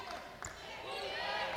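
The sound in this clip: A basketball thumps on the court as a player dribbles during a women's college basketball game, a few bounces under steady crowd noise.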